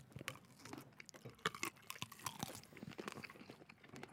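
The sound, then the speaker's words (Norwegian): Close, crunchy chewing of spiced sausage right at the microphone, a quiet run of many irregular bites, squelches and moist mouth clicks. “Sterk pølsesmak på denne. Og nå krydret pølse. Skal vi prøve å ikke spise rett inn i mikken?”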